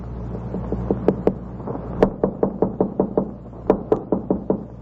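Repeated knocking on a door in several rapid bursts of sharp, loud raps, each burst of a few knocks separated by short pauses, over a steady low hum.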